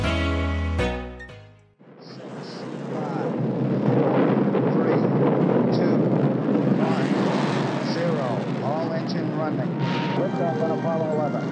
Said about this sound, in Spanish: vamos al despegue del Apolo 11.